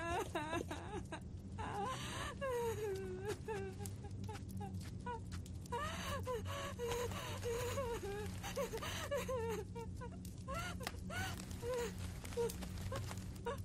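A woman crying in grief over the loss of her baby son: continuous wavering sobs and whimpering wails that rise and fall in pitch throughout, over a steady low hum.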